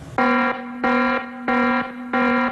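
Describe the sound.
An alarm sounds at night in the bronze gallery of a museum: four loud, harsh buzzing tones at the same pitch, evenly spaced and piercing.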